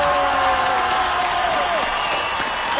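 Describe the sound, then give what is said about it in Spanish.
Audience applause and cheering for Guillermo Ochoa at a live show, a continuous crowd roar at a fairly even level with voices running over it throughout. “El mejor aplauso para Guillermo Ochoa.”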